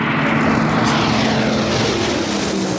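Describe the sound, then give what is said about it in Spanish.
A Pilatus PC-21 advanced training aircraft flies past with a steady, loud propeller-engine drone. The broad roar holds evenly throughout with a low humming tone beneath it. “el Pilatus PC-21 es el avión que aprenderá a pilotar la princesa de Asturias, un avión que suena así.”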